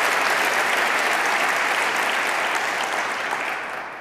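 Audience applause welcomes a young wind quintet with bassoon and French horn players, a steady, dense wash of clapping alone that holds evenly and then tapers off at the end.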